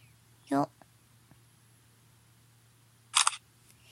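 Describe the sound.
A single-lens reflex camera shutter fires once to take a photo: a short, crisp mechanical burst against near silence.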